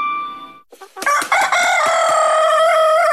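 Rooster crowing: a single long, loud cock-a-doodle-doo that holds strong and steady to the end, after a brief softer tone.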